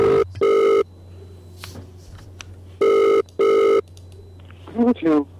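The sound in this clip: A phone ringing tone heard while calling a mobile: steady buzzing bursts in pairs with silent gaps between, followed at the end by a brief voice.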